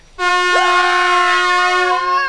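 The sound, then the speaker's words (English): One loud, brassy air horn blast holds for about two seconds, rich in harsh overtones. Its pitch wobbles briefly near the start and again toward the end. “How about an air horn?”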